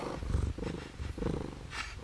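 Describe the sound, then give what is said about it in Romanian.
A sleepy cat purring: a loud, low, rumbling purr that swells and eases in steady pulses, with no voices. “Pisica l-a privit somnoroasă o clipă, apoi a continuat să toarcă nepăsătoare.”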